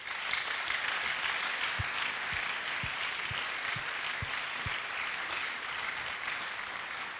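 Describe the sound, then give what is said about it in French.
Steady applause from a church audience acclaiming the Lord, a quiet, continuous wash of clapping with a few soft low thumps in the middle and no voices on top. “On peut acclamer le Seigneur pour eux.”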